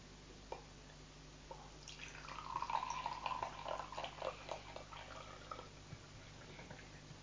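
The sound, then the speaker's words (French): Water poured slowly and carefully into a container, a soft trickling splash building for a few seconds before fading, with a few faint drips before and after. “je vais mettre l'eau dans celui-là”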